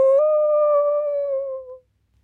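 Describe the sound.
A voice imitates a coyote howling at night: one sustained, steady mid-pitched 'ooo' tone that holds for nearly two seconds, dips slightly at the end and then cuts off into silence.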